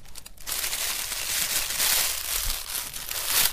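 Soft crinkling and rustling as shiny gold paper is handled in a child's craft, a steady, quiet, papery crackle that swells slightly and continues without talk.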